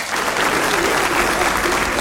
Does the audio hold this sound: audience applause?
yes